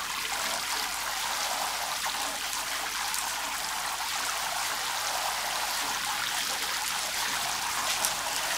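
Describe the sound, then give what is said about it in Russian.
Shower water runs steadily while hair is being washed, a continuous bright hiss at an even level throughout, with no voices. “В душе Дотти моет голову Иннокентию.”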